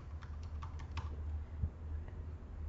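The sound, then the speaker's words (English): Computer keyboard typing: a rapid run of light, crisp keystrokes over a steady low hum, while a name is entered into a form field. “I'm going to type in Humanware space Lenovo.”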